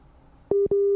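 Telephone busy tone after a dropped call during a phone interview: two steady, clear mid-pitched beeps following a moment of faint line noise.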